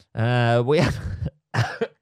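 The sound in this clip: Harsh, phlegmy coughing fit in two bursts: a long, throaty first spell that breaks into rough, noisy hacking, then a short final cough after a brief pause.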